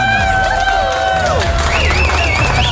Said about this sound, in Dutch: Ik wil nog even één keer een groot applaus voor onze Artist of the Year Female.